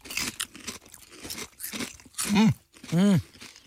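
Someone bites and chews a crunchy potato chip with dip, making a few dry, crackling crunches. These are followed by two short humming voiced sounds.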